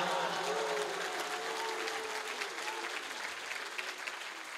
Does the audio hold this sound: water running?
no